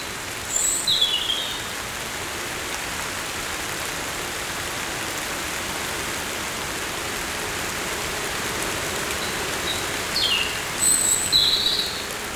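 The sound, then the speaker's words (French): Fine rain splashes in a steady, soft hiss that continues evenly throughout. Brief bird chirps sound near the start and again near the end. “une fine pluie éclabousse vos oreilles.”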